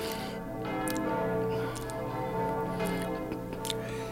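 Church bells ringing in London produce a dense, sustained wash of overlapping metallic tones. The peal holds steady in loudness throughout, with no voices.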